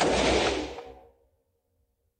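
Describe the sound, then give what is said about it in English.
A single shot from an AR-15 semi-automatic rifle bursts out loud at once and decays over about a second into silence. “Now, those are single shots. If I wanted to fire this on full semi-automatic, all I do is keep firing.”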